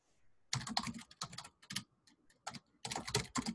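Faint, rapid keystrokes on a computer keyboard come in several quick bursts separated by short pauses, with no voices.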